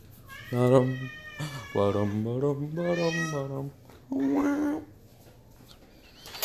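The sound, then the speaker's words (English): Cats meow and caterwaul in a few drawn-out, wavering yowls separated by short pauses, loud and tonal against a quiet background. “crazy cats.”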